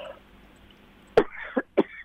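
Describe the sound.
Three short, harsh coughs from a person, coming in quick succession after a stretch of near silence, each burst loud and abrupt.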